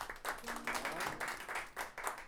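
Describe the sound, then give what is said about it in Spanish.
Audience applause at a payadores night at El Chancho Seis, a steady wash of many hands clapping that keeps swelling and easing in short waves, with a voice faintly audible through it. “Vamos, que fue el último, no importa, aplauso. Aplauso.”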